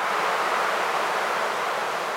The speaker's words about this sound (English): And for the high frequencies, we took a sample of wind from Mammoth Lakes.